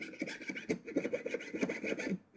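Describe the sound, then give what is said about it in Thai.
A jeweler's fret saw cuts through silver sheet along a curved outline, making quick, quiet rasping strokes in a steady back-and-forth rhythm that stops just before the end. “แล้วเราก็ทําการเลื่อยได้เลยค่ะลักษณะของการเลื่อยนะคะเลื่อยไปลักษณะตามโค้งตามรูปแบบ”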